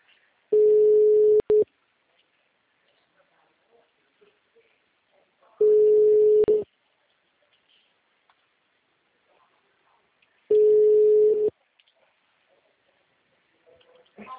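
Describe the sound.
A telephone ringback tone plays on a call: three steady, mid-pitched single-tone beeps, each about a second long, separated by long silent gaps.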